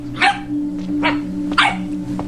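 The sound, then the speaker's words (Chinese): An old dog that guards scrap material at a worksite barks a few times, sharp and loud, with short pauses between barks over a steady low hum. “哪里搞了条狗啊？”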